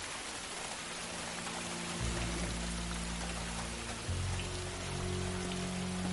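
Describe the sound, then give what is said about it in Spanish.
Heavy rain pouring down in a steady, dense hiss of drops that holds without a break, with a low hum underneath. “Sigue diluviando.”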